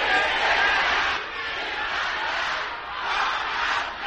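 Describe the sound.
An audience shouts loudly at a church service, massed voices crying out together in sustained waves that surge and ease without a break.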